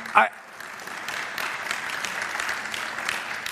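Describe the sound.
A church audience applauds, with a quick vocal burst at the start followed by a steady wash of moderate clapping that carries on evenly to the end.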